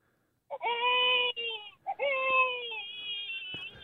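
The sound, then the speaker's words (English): A man's voice imitating a crying baby with high, strained wails. Two main cries are heard, the second longer and sliding downward, with a brief break between them. “I can do the baby noise. Like a crying baby.”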